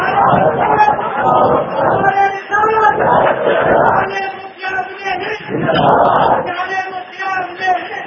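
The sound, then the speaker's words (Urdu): A crowd chants slogans in loud, rhythmic unison. The voiced phrases repeat with short dips between them. “مختصر نعرہ لگائیے تاکہ میں یہ زیادہ بول سکوں. لوگ نعرہ لگواتے ہیں اور میں ونتی کرتا ہوں کہ مختصر نعرہ”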